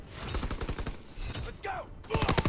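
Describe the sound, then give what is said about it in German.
Video game gunfire with many sharp cracks in dense, rapid bursts that stop and start, loud and punchy throughout. “Snipen war nicht erfolgreich.”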